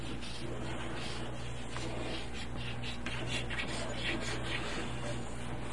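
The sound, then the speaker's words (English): Pencil scratching steadily on paper while a child draws a cat, a soft, continuous rasping and rubbing that stays faint and even throughout, with no clear pauses. “Okay. I'll draw my kitty.”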